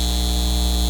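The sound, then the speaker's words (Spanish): Electrical hum from a data center: a steady, buzzy drone rich in harmonics with a bright high tone riding on top, unchanging and alone throughout. “Este es el sonido de un centro de datos llevándose el agua de nuestra comunidad y aumentando nuestras facturas de servicios públicos.”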